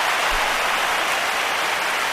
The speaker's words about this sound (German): Applaus.